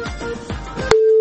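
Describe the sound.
A telephone line tone after a call from Khost drops: crackly line noise gives way to a single steady, mid-pitched beep lasting about a third of a second.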